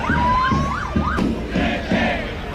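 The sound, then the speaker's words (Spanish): A crowd at a tense protest march in Madrid near a police cordon. A wailing siren rises and falls at the start, then the crowd breaks into a few loud bursts of shouting. “Y este es el sonido de una marcha que ha vivido sus momentos de mayor tensión al final del recorrido, cuando varios manifestantes han intentado traspasar el cordón policial y seguir su camino hacia el Palacio de la”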